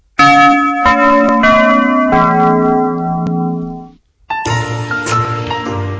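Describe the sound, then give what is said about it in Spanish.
A bell sound effect of rich, resonant chimes with several overlapping strikes. It rings loud and sustained, fades to a short gap, then returns with another burst of ringing. “Por favor, campanas.”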